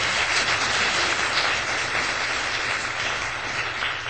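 An audience applauds at a church worship service. The clapping is a steady, dense wash of sound that holds at an even level throughout, with no voices standing out.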